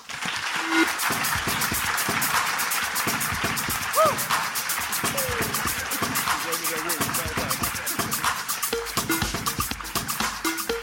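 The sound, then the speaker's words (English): Applause from an audience welcoming a psychiatrist to the stage for a lecture, a dense, steady patter of clapping mixed with crowd voices throughout. “I just had a bet with George that I wouldn't get any whoops. I've just lost it, but only because you gave a whoop.”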